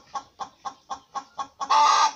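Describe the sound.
A rooster being carried indoors clucks six times in an even rhythm, then lets out a louder, sustained squawk at the end.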